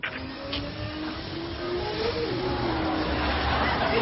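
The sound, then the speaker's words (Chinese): A car engine revs as a drunk driver speeds off, a steady roar with a whine that climbs in pitch. “我现在就飙个车给你们看看”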